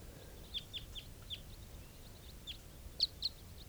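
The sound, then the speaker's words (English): Several short, high chirps come from a flock of about ten wild birds flying over. The calls are scattered and irregular, with the last two the loudest, above a low, steady background rumble. “Wild birds type 4s, a flock of about 10 flying over.”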